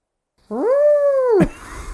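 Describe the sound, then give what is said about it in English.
A human voice imitates an owl's shriek with one sustained, steady screech that bends down at the end and cuts off into a brief noisy rasp. “Owls known for doing things other than hooting, shrieking a lot.”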